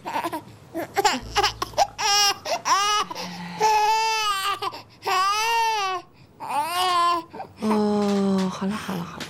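A baby cries in a run of several wailing bursts with rising and falling pitch. The cries are broken by short pauses and grow stronger toward the end.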